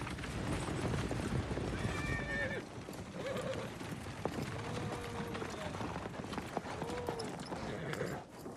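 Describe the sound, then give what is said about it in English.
Hooves clip-clop as a horse-drawn royal carriage crosses an open field, with several short horse whinnies rising above a steady, broad rushing noise that stays at an even level the whole time. “In an open field, the royal carriage approaches Vlad, who waits beside a lone tree.”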